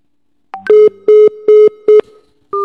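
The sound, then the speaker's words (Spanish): Telephone tones on an outgoing call: a short higher beep, then four loud, evenly spaced mid-pitched beeps in quick succession, followed by a pause and another beep starting at the end. “A ver, estamos llamando.”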